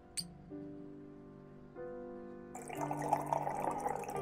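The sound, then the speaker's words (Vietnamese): Fish sauce and red wine poured into a cooking dish, a faint trickle and splash of liquid that grows louder and fuller in the second half. “Đổ một ít nước mắm vào. À, một ít rượu và vang đỏ vào cho nó dậy mùi.”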